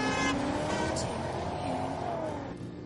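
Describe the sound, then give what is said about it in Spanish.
Engine of a black Audi accelerating hard, a loud, steady roar with faint rising tones running through it, easing off slightly near the end. “Ari se monta y Navas acelera.”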